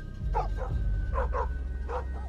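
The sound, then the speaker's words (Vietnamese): A black dog barks shrilly in a village yard while other dogs in the village join in; a few sharp, loud barks come in separate bursts over a steady low rumble. “Con chó mực ở ngoài sân cũng chĩa sang ấy mà sủa lên inh ỏi. Bầy chó khắp cả làng như phụ họa mà sủa theo.”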